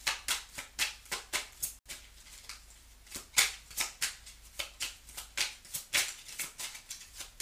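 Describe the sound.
Shuffling a Kipper card deck for a reading: many crisp, rapid flicks of cards in an irregular rhythm, fairly soft and alone, with a brief pause near the start.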